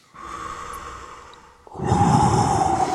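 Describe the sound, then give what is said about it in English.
A deep breath in during a warm-up exercise: a soft airy hiss that swells abruptly into a louder, broad rushing inhale through the second half, with no talk over it. “Deep breath in.”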